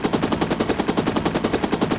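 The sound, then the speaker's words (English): Rapid machine-gun fire with a grenade thrown nearby: a steady stream of many fast, evenly spaced shots with a sharp, crackling edge, loud throughout with no pauses. “This agent just threw what appears to have been a grenade and fired a machine gun.”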